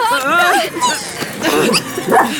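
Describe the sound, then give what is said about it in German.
Small dogs tangled in their leashes yip, whimper and bark in quick high-pitched wavering bursts, mixed with people talking over them. “Wir sind auch alle in den Leinen verheddert. Bleib doch mal still. Ihr macht mir ja meine Hunde völlig verrückt.”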